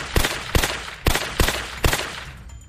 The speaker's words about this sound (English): I unloaded both clips into her.